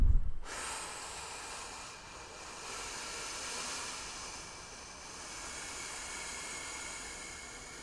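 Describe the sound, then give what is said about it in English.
Slow, deep breath drawn in to fill the lungs, heard as a long, soft, airy hiss that swells gently and holds for several seconds, quiet overall, after a brief low thump at the very start. “take a deep inhale in, and feel the lower, fill the lower, the middle, and the upper part of your lungs.”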